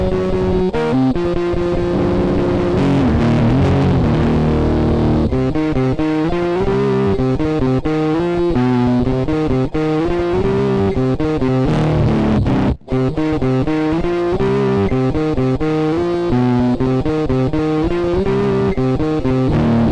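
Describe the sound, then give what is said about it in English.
Electric guitar runs through a bit crusher set to an octave-down fuzz patch, blended with some dry guitar. The gritty, lo-fi distorted riff plays loudly and continuously, with a momentary dropout partway through. “Because we're bit crushing it, you know, it kind of gives it like a bit crushy kind of sound. And I like it. It's like an octave down fuzz.”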